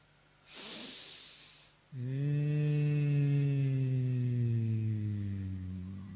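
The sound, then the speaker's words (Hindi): A person breathes through the nose, first a soft hissing inhale, then a long, loud, steady humming exhale with a vibrating nasal buzz that holds one low pitch and drifts slightly lower as it fades. “फिर नाक से ही सांस लेना है, नाक से निकालते समय वहां पर कंपन फील करना है, ऐसे होगा।”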